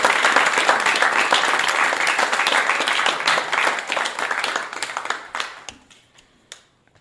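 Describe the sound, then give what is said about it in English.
Studio audience applauding the storytellers at a live storytelling night: dense, loud clapping that holds steady for several seconds, then thins into scattered claps and fades out near the end. “All right, thank you so much to tonight's wonderful storytellers and our fabulous in-studio audience. You all deserve a hand.”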